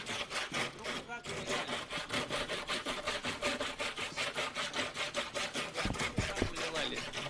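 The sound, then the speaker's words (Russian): Hand sawing in steady back-and-forth strokes. Many rhythmic rasping passes run evenly through the whole clip, with a couple of low knocks near the end. “Пилите пока, вы не останавливайтесь.”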